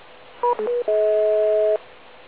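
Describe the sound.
DTMF telephone keypad tones played from a speaker held against a microphone. A few short dual-pitch beeps come first, then a longer steady tone that holds for nearly a second, loud and clean over faint hiss.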